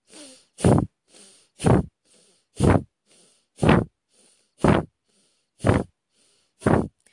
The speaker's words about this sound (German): Und mit deiner Ausatmung kraftvoll durch die Nase aus und der Bauch zieht nach innen.